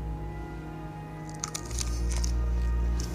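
A person bites and chews a whole sandwich, stuffing it into the mouth. Faint, soft squishy crunches and crackles come in a short irregular cluster over a low steady hum.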